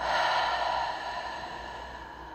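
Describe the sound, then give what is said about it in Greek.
A slow, deep breath, heard as one long airy exhale that starts fairly strong and gradually fades, soft and quiet throughout, with no talking. “Εισπνοή, θετική ενέργεια. Εκπνοή, βγάζουμε αρνητική ενέργεια.”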